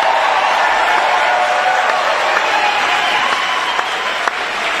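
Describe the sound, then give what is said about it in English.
Crowd cheering and applauding at a North Carolina Republican party convention, a loud, continuous wash of clapping and cheers that holds steady for the whole stretch. “Crowd likes him. Oh, yeah, crowd really likes him.”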